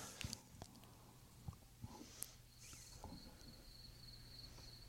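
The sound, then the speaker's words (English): Crickets chirp faintly in the background with a thin high trill that grows steadier in the latter half. A few soft clicks and taps are scattered through the otherwise quiet stretch. “Listen, you can hear the crickets in the background.”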